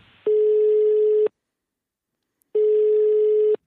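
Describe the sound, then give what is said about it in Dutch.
A phone call rings out as ringback tone: two steady, buzzy one-second tones separated by a longer silence, clear and alone with no voices. “Oké, we gaan hem bellen.”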